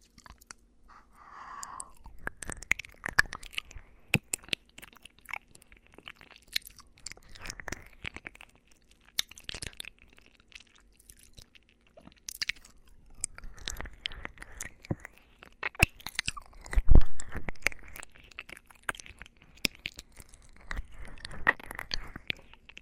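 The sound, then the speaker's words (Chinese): Someone eating makes many faint, crisp chewing and crunching clicks at an uneven pace, with wet, squishy mouth sounds between the bites and a few louder crunches. “我要吃了。”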